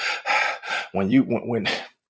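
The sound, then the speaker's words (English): A voice imitates heavy breathing from physical exertion: a few loud, breathy exhalations, then strained, voiced gasps and pants that rise and fall in quick succession. “When we're breathing like that and you're exerting yourself like that”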